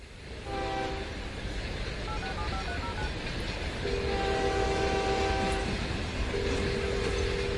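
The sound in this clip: A train horn sounds at a station over a steady, loud rumble of rail noise: a few sustained horn tones, the longer blasts in the second half, with no talking.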